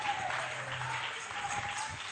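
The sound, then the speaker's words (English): An audience at a sermon claps along, with faint, steady clapping that keeps a fairly even level throughout. “Oh, clap those hands, people.”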